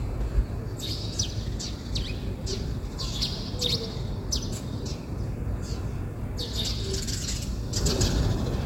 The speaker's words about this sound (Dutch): Er kwamen overigens meer geluiden bij ons binnen. Neem nou deze mussen.